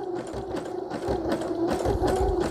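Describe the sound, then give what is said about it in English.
A sewing machine stitches thread on a lengthened stitch setting, giving a rhythmic mechanical whirring that starts slower and quieter, then grows louder and busier partway through. “make the stitches a little bit longer. Okay, here we go. See what happens. Not too fast. I don't want it to choke or break the thread”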